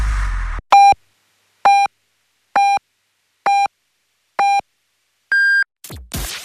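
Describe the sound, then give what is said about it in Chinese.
Hourly Beijing-time radio signal: five short, evenly spaced beeps followed by one longer, higher-pitched beep, each loud and clean against silence. “现在 是北京时间10点。”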